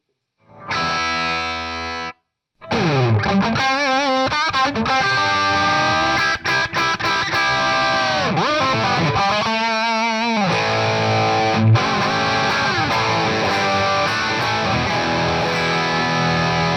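Heavily distorted electric guitar with the gain turned fully up: one brief chord rings out, then after a short pause come loud, sustained, saturated chords and riffs that continue to the end.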